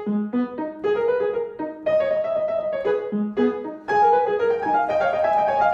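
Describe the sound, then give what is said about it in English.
Baroque orchestra in a minor key playing a cantata movement, first violins and oboe leading a canon that the second violin joins. Sustained, overlapping melodic lines weave steadily and fairly loudly throughout, with no talking. “because now the first violins and the oboe will lead the canon, and the second violin, which you saw earlier had an independent line, will be part of the canon, and it sounds something like this.”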